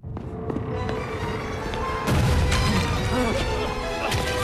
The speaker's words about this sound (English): Dashing outside, they're amazed to find themselves overlooking Royston Vasey under attack from a barrage of flaming rocks.